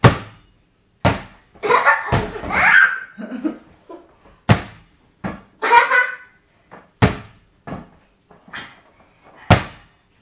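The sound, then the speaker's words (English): A bouncy ball strikes a hard surface in several sharp, loud thuds at uneven intervals, with laughter and voices talking between the bounces. “Quite bouncy, this ball,”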